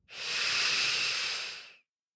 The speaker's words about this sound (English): Take a deep breath